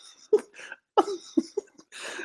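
A few short, raspy throat-clearing and cough-like bursts from a person come in quick succession with brief gaps between them, fairly quiet overall.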